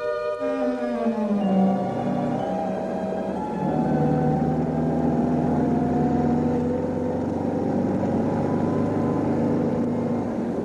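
A car drives over a bad road, giving a steady, loud drone of engine and road rumble that holds evenly through the whole stretch, with no voices.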